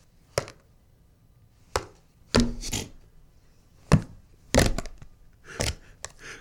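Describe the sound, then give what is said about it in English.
A giant thumbtack stabs a plastic cream cheese lid again and again, making a series of sharp, dry, punctured thunks spaced irregularly with quiet gaps between them. “attacking cream cheese lid number 7. With a giant thumbtack.”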